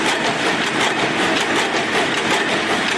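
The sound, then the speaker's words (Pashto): Textile machines run at a Kandahar cotton mill, a loud, dense mechanical roar with a fast rattling clatter that continues without pause. “دا ماشینونه تر څو کلونو وروسته یو ځل بیا چالانېږي.”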